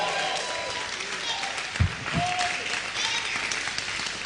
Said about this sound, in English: Come and give the Lord a shout, a louder shout, and put your hands together for him.